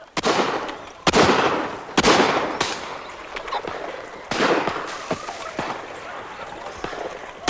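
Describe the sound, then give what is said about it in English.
Shotguns fire at pheasants flushed from their roosts on a misty autumn dawn, several sharp, loud blasts in an uneven sequence, each trailing off before the next. “a group of men dressed in tweed hunting jackets and wearing peaked caps take aim and fire at pheasants disturbed from their roosts.”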